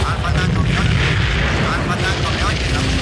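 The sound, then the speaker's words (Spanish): Machine gun fire with heavy blasts in a Vietnam War battle scene, as soldiers fire on villagers and huts by a beach. A dense, loud, continuous roar of gunfire and explosions runs through the whole clip without a break. “Las ametralladoras barren a los campesinos.”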